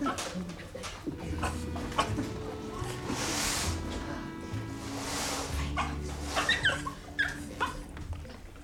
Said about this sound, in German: Augenblick, ich muss nur erst den Hund versorgen.